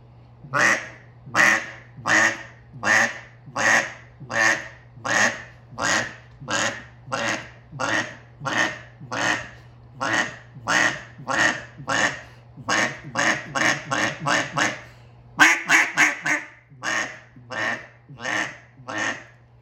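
A cut-down duck call blown by a hunter: many quacks and clucks in a steady rhythm, followed by quicker runs of short, fast clucks, with a low steady hum underneath.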